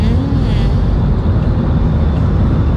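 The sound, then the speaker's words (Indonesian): Truck engine rumble on a road with long traffic queues: a steady, loud, low roar with broad noisy texture, unbroken throughout and with no talk. “Oke, saya ulangi lagi ya. Ada suaranya tadi. Efek truk tadi di depan Riverside.”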